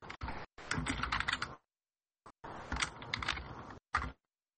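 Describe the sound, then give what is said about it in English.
Clunky, clattery typing on a computer keyboard: dense runs of keystroke clicks in a few bursts broken by short pauses, ending with one brief isolated flurry. “This will be clunky and clattery while I type because I'm not sure how to mute on this right now.”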